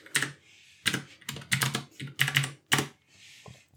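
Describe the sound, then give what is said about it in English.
Brisk bursts of clattering keystrokes on a computer keyboard as figures are entered into an interest column, the clicks coming in quick clusters separated by short pauses, no talk. “Let me run the numbers here. Um, I type minus 10 in the interest column.”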